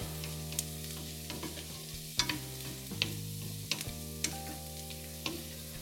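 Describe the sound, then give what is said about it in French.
Carrots and small onions sweat in a pan with a soft, steady sizzle as they are stirred. Several sharp scrapes and clinks of the utensil punctuate it over a constant low hum. “Alors je mets mes carottes dans, mes petits oignons à suer. Je mélange bien.”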